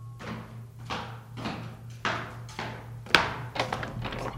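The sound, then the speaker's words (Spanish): Knocking on a street door in the dark early hours: a series of dull, uneven taps and thuds, with one sharper, louder blow near the end, over a steady low hum. “En el momento en el que el reloj señalaba la hora, llamaron a la puerta de la calle.”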